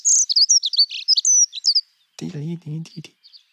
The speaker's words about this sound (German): wir hören noch mal rein in die schöne Heckenbraunelle.